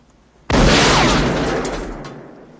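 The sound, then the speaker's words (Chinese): Booming report of a double-barreled shotgun fired in the western film Unforgiven: one sudden, loud blast that rings out into a long, gradually decaying rumble. “不服老不行呐，没有一枪打中，从王者落入青铜，直接掏出了双筒猎枪，”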